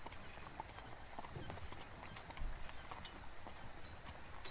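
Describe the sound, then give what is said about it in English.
A horse-drawn carriage rolls along with a steady clip-clop of hooves over a continuous dense rumble, the hoofbeats fairly soft and evenly paced throughout. “We have a long carriage ride to the rendezvous point.”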